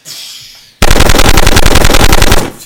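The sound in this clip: Rapid gunfire from a button's bullet mode: a faint lead-in gives way to an abrupt, very loud, sustained burst of fast machine-gun shots lasting about two seconds before cutting off sharply.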